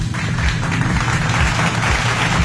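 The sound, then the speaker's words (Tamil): Applause from a small group: steady, even clapping that holds at a loud, constant level throughout, given for a contestant after a word game. “உங்களுக்காக ஒரு கைத்தட்டல்.”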